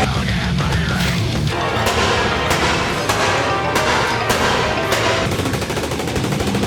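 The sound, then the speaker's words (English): Rapid gunfire with many sharp, cracking shots and bursts over a dense, loud, continuous wash of noise throughout. “Point that motherfucker, shoot him right between the eyes.”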